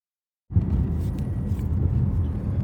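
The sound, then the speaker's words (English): Road noise inside a car on a drive to the office: after a moment of silence, a steady low rumble starts abruptly and holds evenly to the end. “I'm on a nice little drive to the office on a Friday at 10:10 a.m.”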